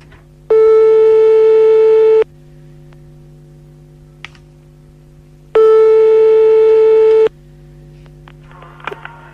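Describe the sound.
Telephone ringback tone while a call is placed to a listener live: two long, steady, fairly loud tones about a second and a half each, separated by a pause with faint clicks and low hum.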